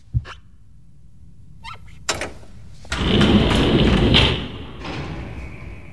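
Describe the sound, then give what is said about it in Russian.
Elevator doors closing: a couple of dull thuds, then a loud rumbling slide that fades into a lingering faint tone. “Двери лифта закрываются, помещение погружается в полумрак.”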